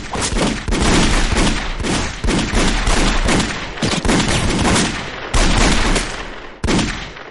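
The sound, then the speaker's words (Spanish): Heavy gunfire rips through a shootout in a thriller-horror action film, dense rapid bursts of shots sustained and loud for the whole stretch, broken only by a few brief gaps. “Marcos y Joe les disparan.”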